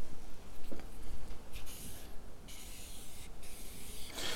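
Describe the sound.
Scratchy rubbing strokes of someone drawing a picture of the Bible, a few short bursts followed by longer stretches of steady scraping, fairly quiet and with no voices.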